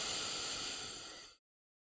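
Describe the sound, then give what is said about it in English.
A deep inhale through the nose, heard as a soft, steady breathy hiss lasting well over a second, faint and even, then cutting off abruptly into silence. “Take another nice deep inhale through your nose one more time.”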